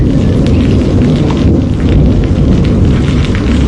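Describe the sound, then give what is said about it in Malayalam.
Rain begins to fall on people walking, making a steady, dense hiss that stays even throughout, with no separate drops standing out and no talk. “അയ്യോ, ദേ മഴ പെയ്യാൻ തുടങ്ങി.”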